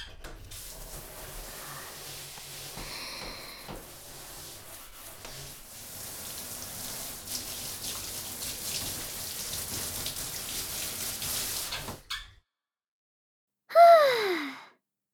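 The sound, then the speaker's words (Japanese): Water rinsing off after washing: a soft, steady splashing hiss that runs for about twelve seconds and then stops, followed by a brief vocal sound that falls in pitch. “よし、これで全部洗えたかな。じゃ、流しまーす。”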